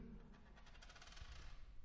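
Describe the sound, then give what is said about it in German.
Two dice, one marked with colours and one with numbers, are rolled in a table game. They make a faint, quick clatter of many small rattling ticks that settles within about a second. “Es gibt zwei Würfel, einer mit Farben und einer mit Zahlen. Ja, ich würfel.”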